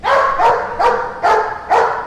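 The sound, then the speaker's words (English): Five sharp, loud barks from a police K-9 dog at a law enforcement museum, evenly spaced in a steady rhythm with nothing else heard. “Yes, there's a real police dog on hand, too.”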